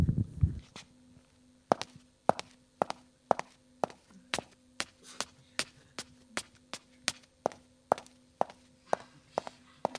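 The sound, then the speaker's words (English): Foley footsteps of women's shoes walking on stairs: many sharp, hard heel clicks in a steady, even walking rhythm, clear and alone after a brief rustle at the start. “I take the shoes for the women's shoes, and I show you 42. And you imagine this lady arrive and walk on the stairs, come in the house, like this.”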